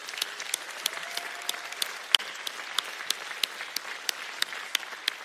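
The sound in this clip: Audience applause for graduating students, made up of scattered, fairly faint individual claps at a steady, uneven pace with no voices over them.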